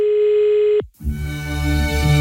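A telephone dial tone sounds loud and steady as a call is placed, then cuts off abruptly. After a brief gap, a lower buzzing line tone with rich harmonics follows.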